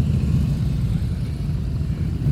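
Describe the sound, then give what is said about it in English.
Engine rumble of motorcycles arriving at a parking lot, a steady, loud low drone that holds without a break from start to end. “That's the sound of the motorcycles arriving back here on Muse Place, Newfoundland Power's parking lot on Muse Place.”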